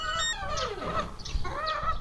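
Chickens clucking and squawking at grain-feeding time, several overlapping harmonic calls running through the whole moment, fairly loud and steady, with no talk.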